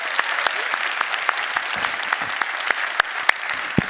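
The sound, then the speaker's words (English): A church audience claps for its other campuses and for viewers watching remotely, including those in the military. The applause is dense and steady throughout, with a few sharper individual claps standing out. “Let's give them all a big hand.”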